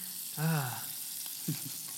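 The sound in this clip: Beef being seared on a hot surface: a steady, bright sizzling hiss runs throughout, with a brief low voice sound breaking in near the start and a short soft knock later.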